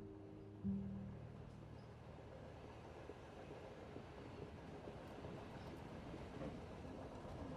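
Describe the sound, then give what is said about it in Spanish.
The steady, faint rumble of a moving train heard from inside a carriage, a continuous low roar with a brief low hum at the start. “Y muy poco a poco, tu imaginación va a ir viajando y viajando hasta aparecer en el interior de un tren.”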